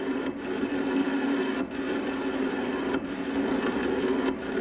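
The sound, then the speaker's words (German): A historic lathe machines an old crane workpiece clamped on its faceplate, making a steady grinding whir over a low hum. Four brief, evenly spaced dips in loudness interrupt it. “Ich habe hier ein Werkstück von einem alten historischen Kran auf der Planscheibe. Mit anderen Worten, ich bearbeite ein historisches Werkstück auf einer historischen Maschine.”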